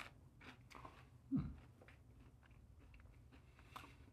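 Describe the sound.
A single crunchy bite into a fresh green jalapeno pepper stands out, followed by faint, soft chewing sounds at low volume.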